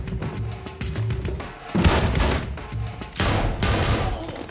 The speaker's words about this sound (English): He ducks behind a wall as a man comes downstairs. He shoots him in the back.